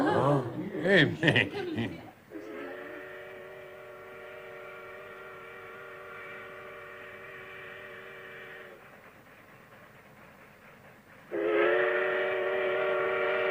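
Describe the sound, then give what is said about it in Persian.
A steam train's whistle sounds as the train arrives: a long, steady, harmonic blast, a quieter pause, then a second blast that runs to the end. A voice chuckles briefly just before the whistle starts. “داره میاد قطار بالاخره داره میرسه”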